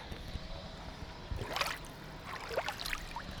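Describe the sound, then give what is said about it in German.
Danube river water splashing at the riverbank as a hand reaches into it, giving a few soft, brief splashes and trickles over a steady low background murmur. “Ach komm, mal in die Donau reingreifen, so plätschern. Also wir sind jetzt hier direkt an der Donau.”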